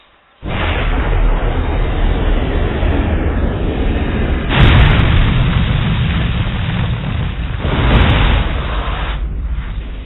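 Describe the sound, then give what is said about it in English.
A huge deep roaring explosion as a planet spontaneously blows apart, starting abruptly and rumbling continuously to the end, with surges of extra force around the middle and again near the close, and no voices. “the only thing that can make me leave now is if the planet somehow spontaneously exploded”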